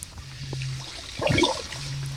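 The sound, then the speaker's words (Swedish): Kayak paddle strokes in water, with soft splashing and dripping that swells into a louder burst of churning water midway, then settles back to a gentle trickle. “det är så härligt att höra de där paddelljuden”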